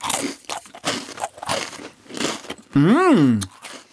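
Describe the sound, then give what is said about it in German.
A thin, thumb-length Serbian biscuit like a butter biscuit is snapped and bitten, giving several crisp, dry crunches. A short hummed 'mmh' follows, rising then falling in pitch. “sieht aus ein bisschen aus wie ein Butterkeks. Ich breche den mal durch und ich esse mal.”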